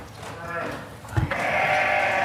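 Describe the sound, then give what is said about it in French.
Sheep bleating in a barn holding about 230 ewes: a few wavering bleats, the last loud and sustained, with people talking. “Alors, les brebis, on va essayer de ne pas trop les déranger.”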